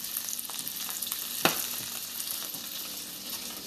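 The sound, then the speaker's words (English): An omelet with jalapenos, cheese, chow chow and sour cream sizzles in a pan: a faint, steady crackling fry, broken once by a single sharp tap midway. “Well, that's the sound of me making an omelet.”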